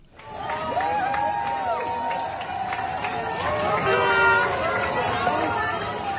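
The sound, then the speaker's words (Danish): Crowd cheering and chattering as the Danish national football team leaves its hotel at Marienlyst for a tournament in Baku. The dense babble of voices holds steady, with shouts and high calls rising above the noise. “Men det her, det var lyden af landshold, der forlader Marienlyst for at tage til Baku.”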